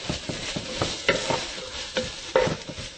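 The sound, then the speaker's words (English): Green peppers sizzle as they fry in a pan while being stirred around. Many quick scraping strokes of the utensil repeat over a steady bed of crackling frying, with no talk. “I'll throw in our green peppers. Stir that around.”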